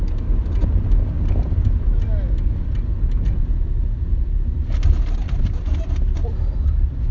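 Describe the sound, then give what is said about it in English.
Continuous low rumble of a car driving along a road, a dense, steady road and engine noise at moderate loudness with faint scattered rattles over the top. “literally driving the road where I found Megatron right now.”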